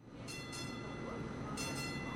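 A train rumbles at a Silicon Valley commuter station, a steady, fairly quiet low roar that runs throughout, with a few brief bursts of high hissing noise.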